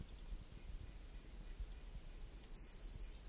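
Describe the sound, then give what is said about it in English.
Faint calls of a red-breasted nuthatch: a few short, high notes arrive near the end over a steady low hiss, with no voices. “Red-breasted nuthead.”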